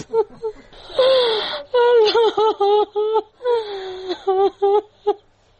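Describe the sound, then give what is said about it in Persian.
A woman wails and sobs in grief, a mother mourning two daughters killed in a bombing in western Kabul. Her high, strained cries come in a long opening wail, then many short, loud, broken sobs, and then another drawn-out wail. “این صدای گریه مادر نگینه و زحل، دو دختری که هفته گذشته در انفجار مطرب بمبگذاری شده در غرب شهر کابل جان باختند”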